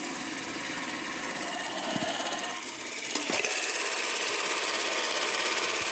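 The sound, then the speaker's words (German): An old 16mm film camera's spring-wound clockwork motor gives a steady mechanical whirr with a fine, rapid ticking texture. It runs evenly throughout, with a couple of faint clicks partway through. “falls ihr euch fragt, was das für ein Geräusch ist hier im Hintergrund, das ist der Motor bzw. das Federziehwerk einer alten 16mm Kamera”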